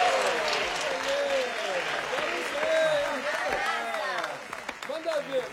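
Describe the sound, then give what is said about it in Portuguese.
Audience applause for the first contestants of a dance contest, a steady dense clapping that runs through the whole clip, with voices calling out over it. “Vamos aplaudir os nossos primeiros concorrentes.”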